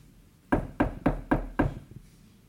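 Knocking on a door: five firm, evenly spaced knocks, loud and alone against a quiet background.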